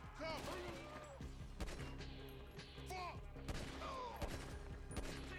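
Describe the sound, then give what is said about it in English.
Gunfire in a shooting video game: several sharp, loud shots crack out at uneven intervals over a busy game soundscape, with voices talking throughout. “Okay, so I put two bullets into this dude, and he's still rolling.”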